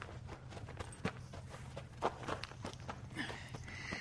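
Footsteps of people walking crouched beneath a bridge at night: many irregular, soft scuffing steps over a low steady hum, with no voices.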